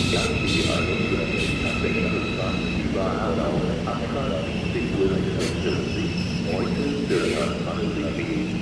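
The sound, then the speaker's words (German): An ICE high-speed train, an ICE 70, pulling in to stop at Frankfurt Süd station, gives a steady rumbling rail roar with a thin sustained whine on top, with voices faintly mixed in. “So, jetzt können wir etwas äh, Seltenes beobachten. Ein ICE in Frankfurt Süd. Ein ICE, ICE 70, hält in Frankfurt Süd.”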